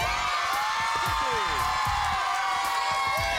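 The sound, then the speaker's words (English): A studio audience at a quiz show on Catholic social teaching cheers and whoops, a dense, continuous roar of many voices at steady loudness throughout. “And we have a very fine studio audience that's right behind you. Are you ready, audience?”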